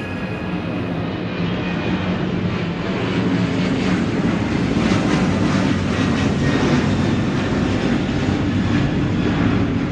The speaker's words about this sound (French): L'avion qui les survole est étrangement bas.